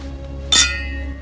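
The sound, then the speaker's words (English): Drinking glasses clinking together in a toast: one bright, sharp chink with a brief ringing tail, standing alone over a steady low hum. “They clink glasses and drink.”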